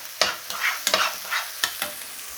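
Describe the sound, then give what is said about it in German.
Onion sizzles as it is stirred in a pan on the lowest heat, with a steady frying hiss broken by repeated quick scraping strokes of the spoon, loud and with no talk. “Rühre weiter ein. Eben schön auch wieder hier durchmischen. Okay, dann wieder zurück zu unserer Zwiebel.”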